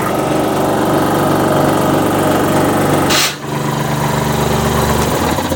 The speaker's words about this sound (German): So, dann wollen wir mal das Werkzeug vorbereiten. Ich werde jetzt versuchen, mit etwas Druckluft zu arbeiten.